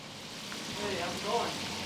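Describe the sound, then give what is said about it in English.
Pan-fried chicken sizzling in a restaurant kitchen, a dense, even crackling hiss that runs throughout, with faint murmuring voices underneath. “Pan-fried chicken sizzled in the background”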